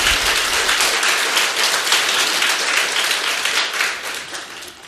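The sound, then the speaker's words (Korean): A church audience applauding during a sermon, a dense, steady patter of many hands clapping for about five seconds, easing off slightly at the close. “네, 우리 박수 한번 칩시다.”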